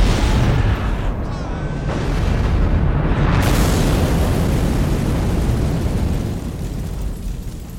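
An explosion in an audio drama rips through a ship under enemy attack as a loud, deep, roaring boom that rumbles on for nearly eight seconds before easing off at the end.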